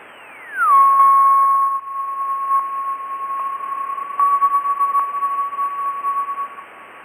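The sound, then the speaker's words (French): Radio signal of a meteor entering Earth's atmosphere and vaporising: a clear tone glides steeply down in pitch, then holds as a steady whistle over continuous hiss, with a few faint ticks along the way. “Ce qu'on entend de manière distinctive, c'est d'abord un signal qui glisse des hautes vers les basses fréquences. Et ça, c'est l'entrée du météore dans l'atmosphère quand il est en train de se vaporiser, littéralement.”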